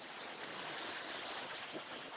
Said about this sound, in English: The waterfall's got so much power behind it that it falls down on your head